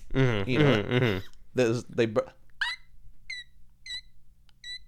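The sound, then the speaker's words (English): A person imitates the call of a newly hatched baby bird in a nest. After a stretch of talking come four short, high, thin chirps, each separated by a pause and quieter than the speech. “that's a baby bird voice.”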